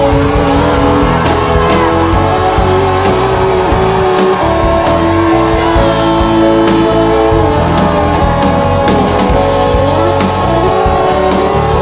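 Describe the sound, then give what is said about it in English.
Congregation at a church service shouting praise to God all together: a loud, sustained roar of many voices with whoops and cries that never lets up. “Let's give God the biggest shout of praise that we have got in our spirit.”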